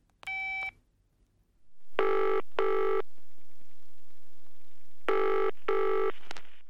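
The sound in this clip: A telephone call is dialled with a short keypad tone. After a pause, two double rings of the ringback signal follow, each pair a steady buzzing tone.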